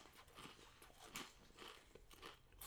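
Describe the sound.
Crunching and chewing on patatje joppie flavoured crisps comes as a series of crisp, brittle crackles and bites, very faint and close, with no talk over it.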